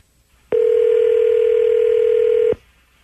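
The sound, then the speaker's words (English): A telephone dial tone: one steady, unbroken mid-pitched tone lasting about two seconds, starting and stopping abruptly, with nothing else around it, heard as a call is being placed. “All right, I'm dialing him up. Here we go.”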